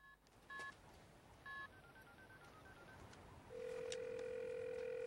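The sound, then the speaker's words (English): Frantic dialing on a mobile phone: two short keypad tones spaced about a second apart, then a steady, louder continuous tone that holds to the end over faint background hiss. “grabs her mobile from her shoulder bag and dials frantically.”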